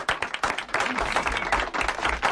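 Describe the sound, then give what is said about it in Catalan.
Applause from a gathered audience as a 2,500-euro charity cheque is handed to a sports solidarity foundation: dense, steady clapping from many hands, fairly loud and sustained. “Amb exclusiva, un aplaudiment, no? Sí, home.”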